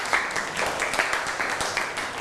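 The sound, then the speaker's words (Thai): Students in a classroom applauding a classmate with a dense, steady patter of clapping throughout. “เก่งมากปรบมือให้เพื่อนหน่อย”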